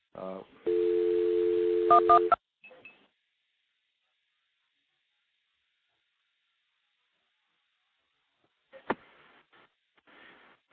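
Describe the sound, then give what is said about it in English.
Telephone call dialed through a stack of five or six phone trunks: a steady electronic dialing tone with a few short tone bursts, then a long silence broken by a sharp click and brief faint noisy bursts. “after this one, I'm going to actually dial a recording through the stack of about five or six trunks that I've got stacked up here.”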